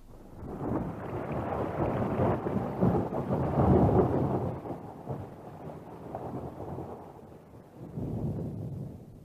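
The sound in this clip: A thunderstorm with rolling thunder and rain: dense rumbling that swells loudest midway, eases off, then rises again near the end over a constant wash of rain.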